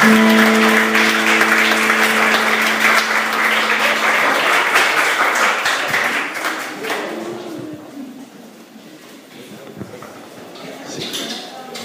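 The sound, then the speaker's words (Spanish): A church audience applauds loudly during a service, a dense wash of clapping with a steady held tone beneath it early on. The clapping thins and fades over the second half. “Dale un aplauso bien fuerte al Señor.”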